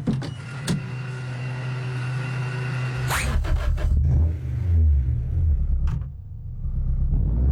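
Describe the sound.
A car drives fast and strongly, giving a continuous rumbling engine drone with a sharp, loud burst of noise around the middle and wavering low tones afterward.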